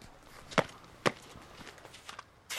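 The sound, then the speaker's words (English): Footsteps land on frosty black tarmac: two crisp, sharp steps about half a second apart, then fainter scuffs and a brief broader rasp at the end over a quiet hiss. “I step out onto the frosty black tarmac.”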